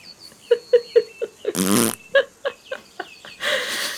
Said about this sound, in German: Ein wilder Dodo springt über den Zaun und furzt.